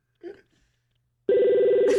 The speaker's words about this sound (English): Oh, nice ring. What kind of phone is this?